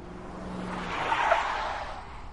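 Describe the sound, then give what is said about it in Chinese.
Car tires hiss and squeal as vehicles brake and pull to a stop on a road where an armed convoy blocks the way. A soft, broad rushing swells in the middle, then tapers off, with no voices. “庆枕等他们的车子停稳后下车”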